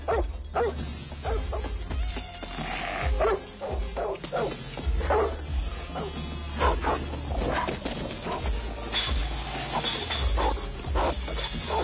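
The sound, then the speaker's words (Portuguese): Dog barking in a dubbed film scene, with many sharp barks and yips in uneven bursts over a low rumbling background, fairly quiet overall. “Vou apresentar você ao meu cachorro.”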